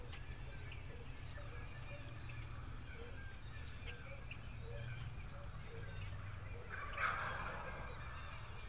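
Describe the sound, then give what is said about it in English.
Two or three wild turkey gobblers gobble faintly over a steady low rumble, with one clearer, louder gobble rising near the end. “It's two or three gobblers.”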